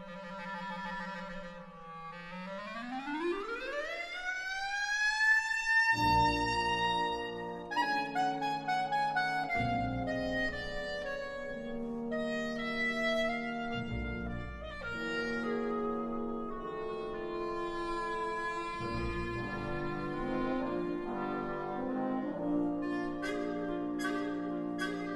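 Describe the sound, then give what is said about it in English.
A woodwind starts with a low trill, then slides in a long smooth scoop up to a high note. A full orchestral passage follows with sustained notes and shifting chords. “Woodwind and brass instrumentalists can do some cool things with scooping and sliding between notes to create different sound colors.”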